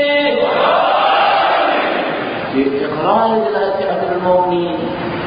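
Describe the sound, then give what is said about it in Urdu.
Crowd shouting the Haidari slogan in response to a call made in the name of Imam Ali: a loud, massed roar of voices that continues as overlapping chanted shouts. “مولا امیر المومنین کے نام پر ان کی آواز کو پورا کرنے کی خاطر نعرہ حیدری”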